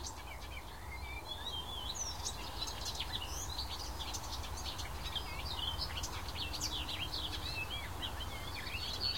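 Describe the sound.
Bird song mixing whitethroat-like warbling with blackbird-like phrases: many quick chirps and twittering notes run without a break, over a steady low background rumble.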